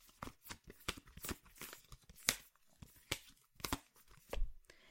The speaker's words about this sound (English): So let me draw a card for you.